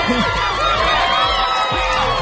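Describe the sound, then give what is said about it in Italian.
A studio audience at an Italian TV show cheers and whoops, a loud, continuous mass of many voices with gliding shouts and crowd noise filling the whole clip. “aspetta che ti arriva l'applauso”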